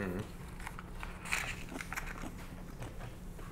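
Biting into a sour fermented food sampled by hand during a tasting: a few soft crunchy bites and crackling chews, one sharper, over a low steady hum.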